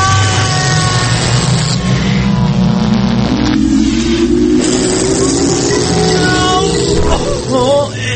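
A time machine sound effect powers up as a loud, continuous mechanical rumble. A whining tone rises steadily in pitch as it starts.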